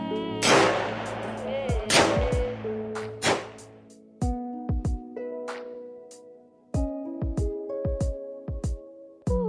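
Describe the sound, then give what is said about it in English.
A rifle being fired: many sharp, loud cracks at irregular intervals, some in quick pairs, set against steady tonal sounds between the shots. “Next for the rifle. Switch it over to fire and pick out the group. Let go when you're ready.”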